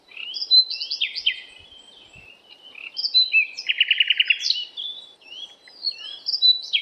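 Birdsong along newly opened hiking trails in Gleichen, near Göttingen: bright, high chirps and rapid trills come in repeated bursts, clear and alone with no voices.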